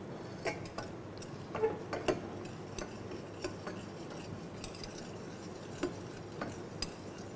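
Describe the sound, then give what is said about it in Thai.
Utensil clinks and a soft, steady hiss from a pan as fish sauce is poured onto caramelizing sugar. Several sharp metallic ticks are scattered over faint, continuous sizzling. “ตอนนี้น้ำตาลก็เริ่มได้ที่แล้วนะครับต่อไปเราจะราดน้ำปลาลงไปนะครับ”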